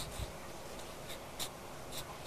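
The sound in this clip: A pencil scratches faintly as a child draws on paper, making several short, soft strokes at uneven intervals over a hissy background.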